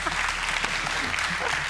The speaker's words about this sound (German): Ein Applaus für das Karnickel.